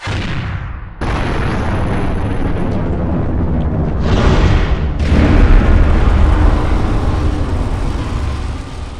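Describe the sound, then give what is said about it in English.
A mountaintop explodes in an eruption sound effect: a deep, roaring rumble bursts in abruptly after a brief dip and holds loud and dense for several seconds. It swells again midway and sustains to the end, with no voices. “at that point, the demiplane starts to shake a little bit. Like, the ground is actually, like, shaking. And that's when the top of the mountain explodes.”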